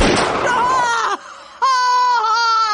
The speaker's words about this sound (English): The gun fired.